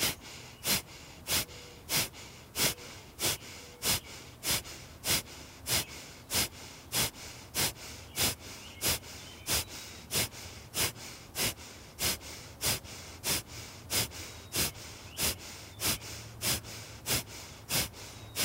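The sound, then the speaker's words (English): Kapalabhati yoga breathing, many forceful nasal exhales in a steady, rapid rhythm, each a sharp puff of air with a passive pause between, continuing alone without talk. “And I was thinking maybe we do Kapalabhati breath here. So inhale and exhale actively through your nose, and then let your in-breath come in passively, drawing your navel back to your spine.”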